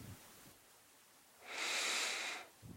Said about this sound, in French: prenez une grande inspiration